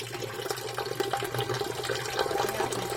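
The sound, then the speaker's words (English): Wort pours in during pale ale brewing, a continuous rushing, splashing flow of liquid at an even level throughout, with no talk. “So just say, what is this now going in here? This is called wort. So this is essentially, this is what the liquid will be and what it will look like.”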